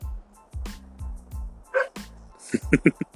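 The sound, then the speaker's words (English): A dog barks and yips in a string of sharp, uneven bursts. Low, drawn-out whines come first, and a quick cluster of louder yaps follows. “I just noticed that this mic is picking up all the dog's noise.”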